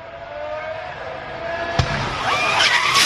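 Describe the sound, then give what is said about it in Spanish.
A Formula 1 car crashing at about 250 km/h after its front-left suspension broke: one sharp bang of impact cuts through loud roaring car noise, which then swells into a dense, rising crunching rumble. “Acaba de pasar a Fórmula 1 las imágenes del accidente y mira cómo suena el golpe.”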